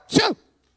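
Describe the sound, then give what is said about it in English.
A voice imitates a sneeze with a single short, sharp 'ha-choo' burst, loud and alone, cutting off abruptly into silence. “the lad sneezed 7 times. Ha-choo, ha-choo, ha-choo, ha-choo, ha-choo, ha-choo,”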